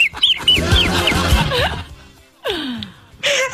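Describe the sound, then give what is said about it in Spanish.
A chicken, said to have bronchitis, clucking: a run of short high chirps and clucks, then a few hoarse, downward-sliding squawks separated by pauses. “Mira, es un pollo. Un pajarito. Tiene bronquitis.”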